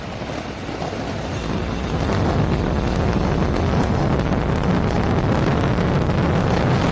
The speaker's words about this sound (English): And liftoff of NASA's Roman Space Telescope on a mission to revolutionize our understanding of the universe. All M1D chamber pressures are nominal. Falcon Heavy has cleared the tower and is on its way to space.